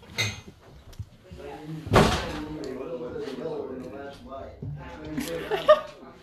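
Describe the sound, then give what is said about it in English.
A door slams shut with one sharp, loud thud, surrounded by talking voices and chuckling. “You can still close the door. Close the door!”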